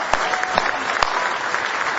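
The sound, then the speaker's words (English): A church audience clapping their hands in praise during a worship service, a dense and continuous burst of applause that stays loud and even throughout. “Give Him a big hand clap of praise.”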